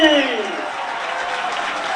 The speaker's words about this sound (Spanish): Pongámonos de pie y aplaudamos como se merece